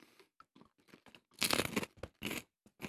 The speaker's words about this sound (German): Jetzt nehme ich mal da das Apple Lemon Geschmäus. Die sind die Popcornbölleli, die sind richtig grün, knutschgrün.